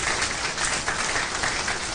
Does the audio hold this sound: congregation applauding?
yes